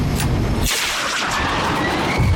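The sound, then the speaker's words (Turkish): A bomb released onto a target explodes in a dense, loud roar of noise with a deep rumble that fills the whole clip and thins briefly in the middle. “Vakit yok. Bombayı bırakıyorum.”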